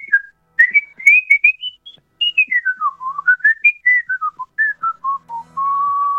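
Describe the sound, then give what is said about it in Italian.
An expert whistler whistles a wandering melody alone, with quick rising and falling phrases broken by short pauses, ending on a long, steady held note. “ti interpelliamo in quanto fischiatore esperto, parlaci di come ti sei avvicinato a questa arte antichissima del fischio.”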